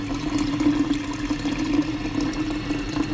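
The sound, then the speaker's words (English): Water rushing steadily as a giant water-cooler bottle is filled at the cooler in a newsroom, a continuous even wash with a faint low hum, no pauses. “Do you recognize that sound? That is the sound of somebody filling up one of those giant water bottles.”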